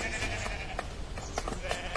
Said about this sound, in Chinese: 走，我们赶羊回家去。